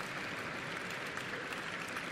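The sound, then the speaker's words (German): Audience applause at a shareholders' meeting: dense, even clapping from many hands, held at a steady moderate level throughout with no voices rising above it. “Und der Applaus in dieser Frage könnte etwas ausgeprägter sein.”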